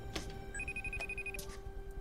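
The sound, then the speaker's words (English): A cell phone rings faintly in a house, a brief electronic trill lasting under a second over steady background hum and hiss. “At Patrick's house, his cell phone rings.”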